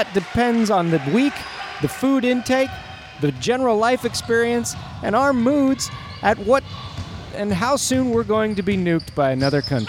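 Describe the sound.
Basketballs bounce during a women's rec league basketball game, sharp thuds landing under a man's continuous commentary.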